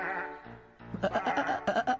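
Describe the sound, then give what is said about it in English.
Sheep bleat: one lower call, then wavering, quavering bleats follow in quick succession, loud and clear with a pulsing tremolo. “It's just the sheep giving us our woolly wake-up call.”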